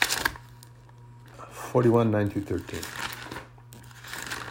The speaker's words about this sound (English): Flipping pages. That's what that rustling is in the background that you hear.